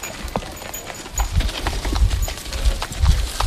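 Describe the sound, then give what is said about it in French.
Hooves clip-clop steadily as a horse-drawn cart collects garbage through a neighbourhood, many hoofbeats over a low rolling rumble. “Le projet associe de nombreux habitants de la localité, comme Aliou Konaré, qui contribue au ramassage des ordures à l'aide d'une charrette.”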